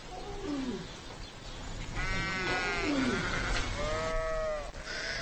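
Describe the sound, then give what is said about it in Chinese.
A newborn lamb bleating just after birth: several wavering, nasal bleats, some sliding downward and others held with a buzzy tone, spaced a second or so apart over a steady background noise. “在几个小时的挣扎和嘶嚎后，他终于生下了小羊羔。”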